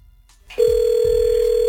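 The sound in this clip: A telephone call being dialed: after a short near-quiet start, a loud, steady, unbroken telephone tone comes in and holds at one pitch to the end, with no voices.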